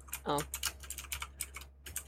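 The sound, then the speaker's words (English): Typing on a computer keyboard produces a quick, irregular run of many faint key clicks with short pauses between bursts. “Deal with my keyboard for a second.”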